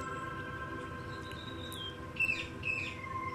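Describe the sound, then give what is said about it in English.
Birds sing in garden trees, a few faint chirps and tweets rising near the end over a steady low humming drone. “you can hear the birds singing in the trees.”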